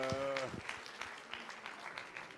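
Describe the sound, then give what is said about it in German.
An audience applauds at a Pentecost church service, a soft, even patter of many hands clapping that follows a brief voice at the start. “Давай ще ещё поаплодируем им, они молодцы. Lass uns noch mehr Applaus geben.”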